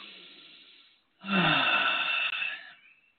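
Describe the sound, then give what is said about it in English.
A big, deep breath is drawn in loudly as a strong, airy rush lasting over a second, coming after a fainter, softer breath sound. “So, all right, everyone take a big deep breath.”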